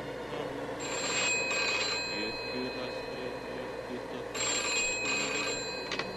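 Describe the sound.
A telephone bell rings on a secret line: two long bursts of bright, shrill ringing separated by a pause of a couple of seconds, over a steady low background hiss.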